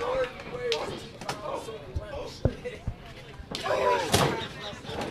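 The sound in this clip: At a wrestling event, a wrestler crashes through a door. A few sharp slams and cracking thuds break through a busy background with voices.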